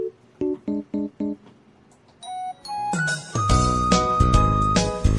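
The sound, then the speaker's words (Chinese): Cheerful, flirtatious jingle music opens with four short, bright chiming notes in an even rhythm, then swells into a loud, full band arrangement with sustained tones. “听到这个春心荡漾音乐哈，好像就是有人要去外面玩了。”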